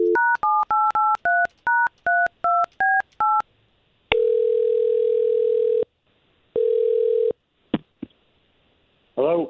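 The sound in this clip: A telephone number dialled as a quick run of touch-tone beeps, then two long steady ringing tones, a couple of clicks as the call connects, and a voice just starting at the very end.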